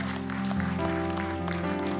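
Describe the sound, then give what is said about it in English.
Church audience clapping during a service, a soft, brief patter of hands over a sustained tonal background. “You can give God a clap.”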